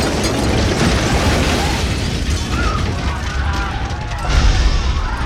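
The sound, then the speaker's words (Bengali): A train engine derailing at a station entrance and overturning, with an explosion: a loud, continuous roaring crash of dense rumble and grinding metal that swells again toward the end. “ইঞ্জিনটা প্রায় স্টেশনের মুখে ঢুকে যাওয়ার সঙ্গে সঙ্গে একটা বিকট যান্ত্রিক শব্দ করে লাইনচ্যুত হয়ে চিত হয়ে পড়ে গেল।”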